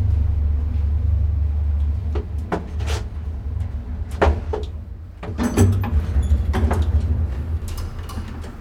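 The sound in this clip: An elevator in an office building rides down to the first floor with a low steady rumble, then a series of clunks and a sliding sweep as the doors open.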